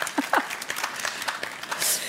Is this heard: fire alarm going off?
no